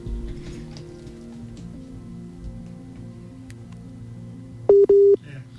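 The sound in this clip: Telephone tone as a phone call drops out: muffled low hum and murmur give way near the end to a brief, loud, steady electronic tone split into two short pulses, then silence.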